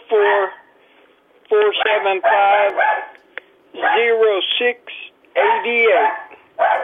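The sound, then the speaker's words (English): A dog barks and yips in several bursts of different lengths, loud and close together, mixed with a person talking. “That's the thing about dogs, are well behaved until you need to do something important.”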